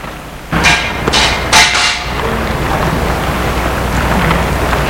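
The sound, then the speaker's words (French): Hammer and chisel tap around a stone slab, giving a few sharp, bright metallic strikes in quick succession early on, then a steady background hiss with no further clear blows. “William se penche et avec le burin et le marteau,”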